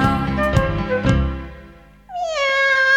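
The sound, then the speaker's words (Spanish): A female cat meows in a kitchen: one drawn-out meow with a sharp onset follows a short musical passage that carries a couple of percussive hits. “Esa es la gata de Doña Emelina. Imitemos la gata de Doña Emelina, la que maulla en la cocina.”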